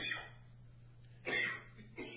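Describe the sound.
A man coughing during a church talk, with a few short, faint hacking bursts; the strongest comes in the middle.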